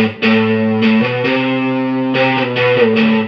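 Electric guitar played through a Maestro fuzz pedal set to modern mode: a loud, thick, distorted lick of sustained notes that shift in pitch several times, each new note starting with a bright attack.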